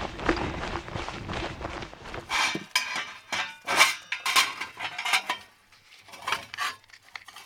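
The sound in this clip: Pots, dishes and cutlery clatter and clink as someone cooks at home on the steppe, an irregular run of many knocks and scrapes with a short lull before a few final clanks.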